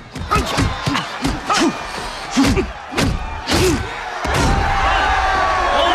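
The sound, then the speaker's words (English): Punches land in a boxing match as several heavy thuds and smacks, mixed with shouts and crowd noise that grows into a louder, steady roar near the end. “Jake's pushed into a corner and he shoves the other boxer away from him. Jake punches him in the face, then forces him against the ropes.”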